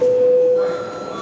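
A bell signal calls deputies to registration in a parliament chamber: a single steady electronic tone held for under a second, then cut off, leaving faint background noise.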